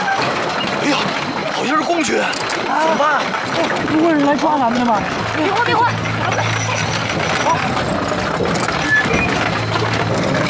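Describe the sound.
Hooves clip-clop steadily from a horse-drawn cart on a road crowded with villagers and soldiers. Several people talk over the constant hoof beats and background bustle.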